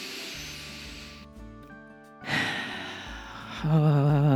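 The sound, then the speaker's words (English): A deep inhale during a guided breathing exercise: long, airy bursts of breath noise separated by a brief pause, ending in a louder, breathy rush. “Let's take a breath right here. Inhale.”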